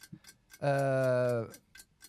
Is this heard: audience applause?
no